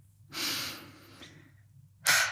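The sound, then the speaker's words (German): A deep breath is heard alone: a long, airy, drawn-out breath swells and fades, followed by a shorter, sharper burst of breath at the end, with no talking. “Ich atme jetzt einmal tief durch.”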